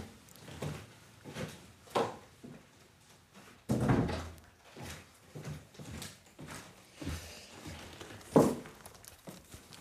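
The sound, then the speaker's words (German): A window being shut because rain is coming in, heard as a few knocks and bumps, with a louder clack midway and another sharp one near the end. “ganz schnell mein Fenster zumachen, weil es reinregnet.”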